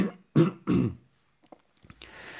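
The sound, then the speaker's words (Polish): Throat clearing by a man: two harsh, loud rasping bursts in quick succession, followed by a few faint small noises. “Przepraszam, muszę coś odkaszlnąć.”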